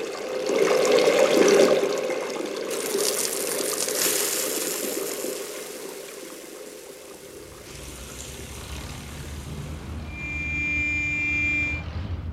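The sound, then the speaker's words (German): Hands being washed under running water: a loud, steady rushing pour eases off midway into quieter trickling, and a few clear ringing tones sound near the end. “Bitte sofort die Hände waschen.”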